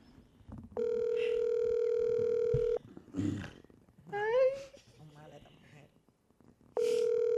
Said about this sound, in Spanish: Déjame llamar a quien me dio la información. Estoy llamando a la que me dio la información.